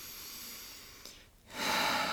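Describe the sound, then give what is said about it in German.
One or two slow, quiet breaths, soft and airy: a long, gentle breath fades into a brief pause, then a stronger hissing breath follows. “rausgehen aus dem Stress, der gerade entsteht, in mich hinein, indem ich meinen Atem wahrnehme. Vielleicht ein, zwei Atemzüge.”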